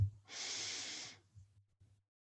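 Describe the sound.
A single breath drawn in during a yoga flow, a soft airy hiss about a second long, faint and alone.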